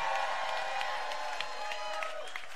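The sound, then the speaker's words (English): Audience applause and cheering at a live show in an Oakland venue: dense, steady clapping mixed with crowd shouts that stays loud and continuous from start to finish. “Give it up for freedom as long as it lasts! And give it up for the Warriors!”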